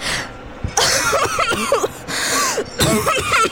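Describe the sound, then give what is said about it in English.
A woman's voiced choking and gasping for breath: a few harsh, ragged coughing bursts with strained gasps between them, loud and rough throughout. “Samantha Stone heaves in a breath, choking.”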